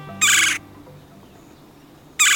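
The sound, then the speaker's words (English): A red-bellied woodpecker calling: two loud, harsh, rolling churr notes about two seconds apart, the second cut short at the end, with quiet background between them. “And red-bellied woodpeckers are unabashedly vocal.”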